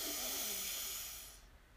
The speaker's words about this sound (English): So let's do that 3 times. Deep breath in.